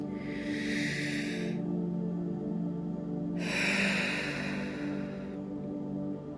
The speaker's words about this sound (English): let's go ahead and begin to arrive in the moment by taking a deep breath here.